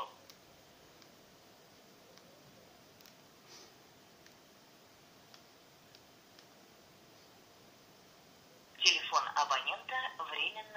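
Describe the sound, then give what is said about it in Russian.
Telephone tones from a call being placed come in as a short, loud cluster of bright beeps near the end, after a long, nearly silent stretch with only faint clicks. “попробую дозвониться, все равно”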